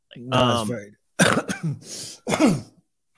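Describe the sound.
A person clears their throat hard, trying to dislodge something stuck in it, making a few harsh, raspy bursts in quick succession, loud and without speech.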